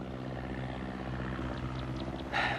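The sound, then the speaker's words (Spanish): Steady droning hum of a propeller airplane with fabric-covered wings flying over hills. The engine tone holds level throughout, with a brief brighter swell near the end. “El avión sobrevuela unos montes.”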